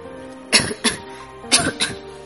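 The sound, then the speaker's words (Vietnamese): A man lying on a sofa coughs violently in four harsh, raspy bursts, arranged as two quick pairs separated by a short pause. The coughs are loud and heard on their own. “Người nam nhân đang nằm trên ghế sofa lại ho dữ dội.”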